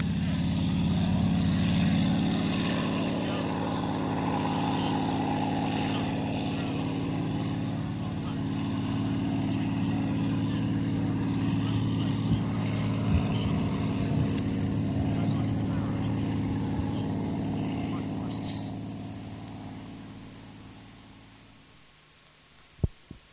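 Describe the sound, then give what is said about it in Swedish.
A Mustang aircraft's piston engine drones steadily and loudly with a throbbing, low harmonic hum that holds for most of the stretch, then thins out and fades near the end, where two brief clicks sound. “Startade Mustangen.”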